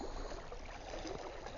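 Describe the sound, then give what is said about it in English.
Calm water splashing between rocks, a soft, continuous wash with no distinct individual splashes, faint and steady throughout. “the water splashing here. I'm passing through in between the rocks here. It's quite calm today. It's not that it's not windy, but the water is pretty calm.”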